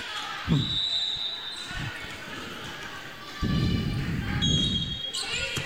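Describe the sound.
A few sharp thumps of a volleyball being served and hit during a high school match between Perham and Lake of the Woods, with background noise swelling louder after midway.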